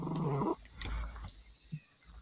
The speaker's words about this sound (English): That's a cat purring, it sounds like.